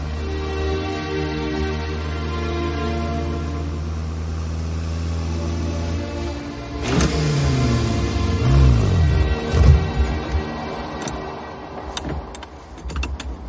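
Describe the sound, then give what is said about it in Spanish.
A red Ferrari convertible engine on the street holds a steady, low, humming idle for about six seconds, then revs louder with wavering pitch before easing off toward the end. “En la calle conduciendo el flamante Ferrari rojo descapotable.”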